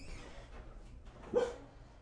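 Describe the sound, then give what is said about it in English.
A single short dog bark rises briefly out of a quiet, low background hum partway through, faint and alone, with no talk around it. “Now we got a barking dog in here.”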